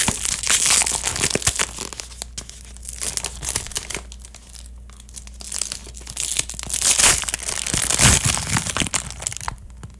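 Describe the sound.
Aluminium foil wrapper crinkling and crunching inside a chocolate bag, with many dense, irregular crackles that keep going for the whole ten seconds and swell louder near the start, middle and end. Nobody speaks.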